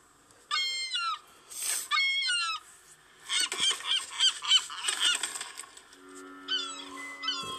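Seagull calls, harsh squealing cries in several bursts, some rapid and overlapping, with a steady lower tone near the end.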